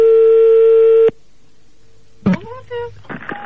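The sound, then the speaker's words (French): A telephone ring tone sounds during a phone call as one steady electronic burst about a second long. Near silence follows, then voices talk. “Attention, ça sonne.”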